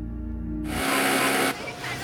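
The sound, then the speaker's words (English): A sewing machine runs a length of cotton through in a factory: a loud, steady mechanical whir for under a second, which then drops to a quieter, rougher rattle. “Shanai is working in a factory, running a length of cotton through a sewing machine.”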